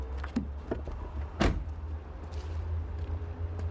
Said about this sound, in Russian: Черный автомобиль подъехал к гаражу.